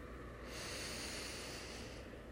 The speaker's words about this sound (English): Taking a deep breath in,